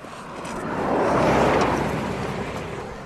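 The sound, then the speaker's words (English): A car speeds along a straight coastal road, a broad rushing whoosh that swells to a peak mid-clip and then slowly fades, with no talk. “And they do seem to like driving past us quite quickly along this stretch, don't they? It's the only bit of straight road in the whole of this part of the coast.”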